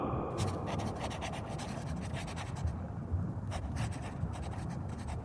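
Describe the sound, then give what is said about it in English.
A pen scratches steadily as a poem is written down by hand, with many short strokes in a faint, continuous rasp. “Writing that poem down.”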